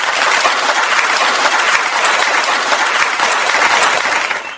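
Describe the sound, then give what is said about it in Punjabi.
An audience claps for a quiz contestant who has answered correctly, a loud, dense, unbroken wash of many hands that holds steady and then tapers off at the very end. “ਆ ਲੋ ਜੀ ਤੁਹਾਡੇ ਲਈ ਵਜਾ ਦਈਏ ਅਸੀਂ ਤਾੜੀਆਂ।”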